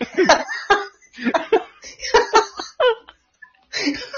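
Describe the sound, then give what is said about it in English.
A woman coughing in a series of harsh, voiced bursts grouped in uneven clusters, separated by brief silent gaps. “Coughing. She's coughing up here.”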